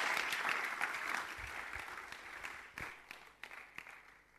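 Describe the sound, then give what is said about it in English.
Applause from a church audience welcoming a speaker who comes up to minister: fairly faint, thick clapping at first that thins out into scattered claps toward the end. “Let's give her a big hand as she comes up to minister.”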